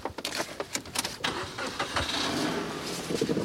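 A car engine starts before driving off, with a burst of uneven clattering knocks at first that gives way to a steadier, continuous engine rumble, fairly loud and without talk.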